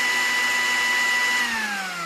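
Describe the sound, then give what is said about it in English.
A kitchen blender runs at high speed, a loud, steady motor drone with a whining tone that drops in pitch over the last half-second as the blades slow down. “Hold on a second. I'm making something in the blender.”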